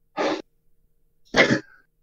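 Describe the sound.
A voice imitates heavy, exhausted breathing, like a man sprawled out with one arm hanging over the side. Two loud, rough breathy bursts are separated by a short silence.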